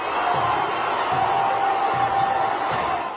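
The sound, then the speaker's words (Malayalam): A crowd of more than twenty thousand people cheering at Narendra Modi's event in Sydney's Olympic Park: a dense, sustained roar with a faint, regularly repeating low thump beneath it. “ആവേശം വളരെ വലുതായിരുന്നു നരേന്ദ്രമോദിയുടെ ഓരോ വാക്കിനും വലിയ കയ്യടിയാണ് ലഭിച്ചത്”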